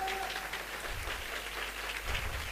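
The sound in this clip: Audience clapping during a sermon, a steady, continuous wash of many hands applauding that holds at an even loudness throughout.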